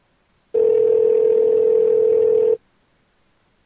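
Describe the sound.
A telephone dial tone plays on a call as a single steady, loud hum lasting about two seconds, then stops abruptly. Silence follows before another sound begins at the very end.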